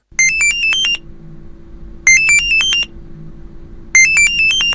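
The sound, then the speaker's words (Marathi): A phone rings with an incoming video call, a bright electronic ringtone playing three identical high melodic bursts at a steady interval, with quiet background noise between them. “अरे सुखदाचा video call. अरे घे ना.”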